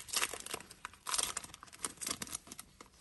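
Faint crinkling and tearing of wrapping as a 2020 Panini Donruss Optic Basketball NBA Mega Box is opened, with rapid, irregular rustles and rips and no talk.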